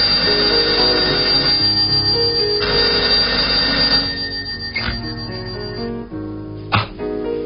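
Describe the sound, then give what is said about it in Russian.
A telephone rings in a room at night, a loud, continuous ring that lasts for several seconds before giving way to quieter sounds. “На седьмой день, вернее, на седьмую ночь, когда он крепко спал, в комнате раздался телефонный звонок.”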